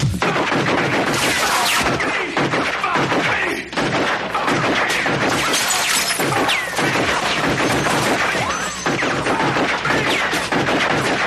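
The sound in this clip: Heavy gunfire from a film scene: dense, sustained volleys of loud shots and thuds that continue without a break from start to end.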